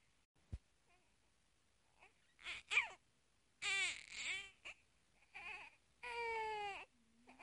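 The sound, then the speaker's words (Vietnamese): A baby lying in a basket cries in several wailing bursts with wavering pitch, fairly quiet, separated by short pauses. “đứa bé trong giỏ lại bật khóc thành tiếng”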